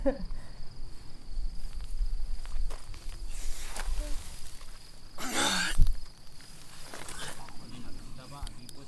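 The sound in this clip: Crickets chirp outdoors at night in a thin, steady high-pitched trill that runs throughout, beneath rustling and footsteps on the ground.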